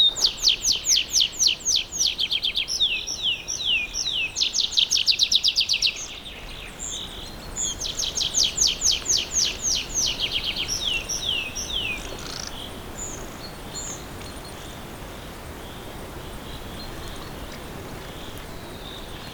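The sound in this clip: Birds sing in a fir forest in Poľana, Slovakia, repeating rapid high-pitched chirping trills in bursts over the first two thirds. The song then thins out, leaving a quiet, steady outdoor hush.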